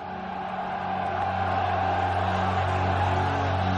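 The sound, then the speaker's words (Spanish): The frenzied cheering of a crowd of more than 100,000 spectators at a Circus Maximus chariot race: a loud, steady roar that swells slightly, over a low rumble. “En medio de un frenético clamor de vítores de un público de más de 100.000 espectadores.”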